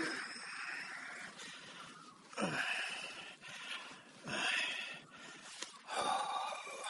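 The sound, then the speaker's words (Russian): An old man breathing onto his hands to warm them after crawling into a hut: soft, airy exhalations with a few louder, breathy puffs at intervals, and no talk. “Дыханием отогревает руки.”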